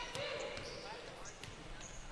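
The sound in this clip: Basketball dribbled on court during a women's game: a few dull, irregularly spaced bounces thump beneath a commentator's steady talk.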